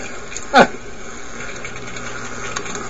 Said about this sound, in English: And basically that circulates the water through there and goes up through the old swimming pool pump.